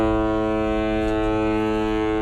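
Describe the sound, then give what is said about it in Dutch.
A deep, rich-toned horn blast from the MS Rotterdam, the Holland America Line's newest cruise ship, arriving in Rotterdam, sounding as one loud, steady, unbroken tone for the whole stretch. “Ja, hij zag de MS Rotterdam, het nieuwste schip van de Holland-Amerika-lijn.”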